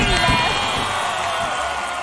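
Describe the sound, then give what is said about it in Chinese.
Audience applause greets eight young dream-chasers on stage at a televised youth event, a dense, steady wash of clapping that holds at an even, fairly loud level for about two seconds without a clear break. “好，我们再次用掌声欢迎今天的八位追梦人。”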